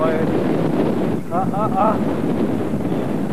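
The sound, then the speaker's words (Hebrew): Wind blows hard on the microphone outdoors at a windy spot where a kite is being flown in California, a steady, loud buffeting rumble that runs through the whole clip, with a few brief faint tonal sounds midway. “מקום עם רוח,”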